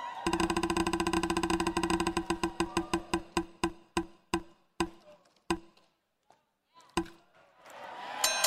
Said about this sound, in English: Let's spin the wheel.